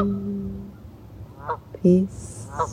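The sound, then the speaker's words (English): Geese honking, with a few short, nasal calls spaced unevenly over a steady low background hum. “The geese live in community, constantly communicating with each other,”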